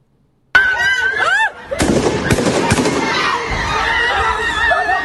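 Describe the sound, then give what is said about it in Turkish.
Gunshots fired into a crowd after a funeral meal in Ankara, recorded on a phone camera: a few sharp, loud bangs burst out amid frantic raised voices and continuous crowd noise. “Gözü dönmüş saldırgan kalabalığın üzerine ateş açtı. Korku dolu anlar cep telefonu kamerasına yansıdı.”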